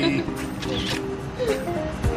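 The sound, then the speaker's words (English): A camera shutter clicks as a selfie is taken at breakfast, and people keep talking and laughing throughout. “In true me fashion, we need to take a selfie. So yes. If you don't mind, yes. We're gonna get in here. All right, say meaty.”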